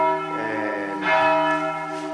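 Church bell in a bell tower dating from 1449 rings with a rich, sustained metallic tone, and a fresh strike about a second in swells the ringing before it carries on humming.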